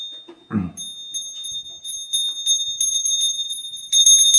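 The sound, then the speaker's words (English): A bell rings with a steady, high, sustained tone that hangs on throughout, with faint light taps and ticks scattered over it and a brief low knock near the start. “Okay, bell's rung enough now.”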